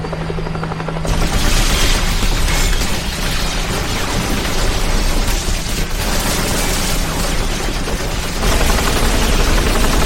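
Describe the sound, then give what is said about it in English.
Loud gunfire in a video game: dense, continuous shooting that runs almost unbroken for about ten seconds as a steady, harsh roar, with no talk. “let's not shoot up the historic architecture here. Too late.”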